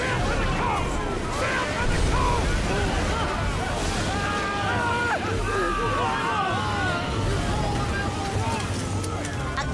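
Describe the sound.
A ship tossed by storm swells at sea: a dense, unbroken roar of wind and surging water fills the whole clip, with shouting voices mixed in throughout.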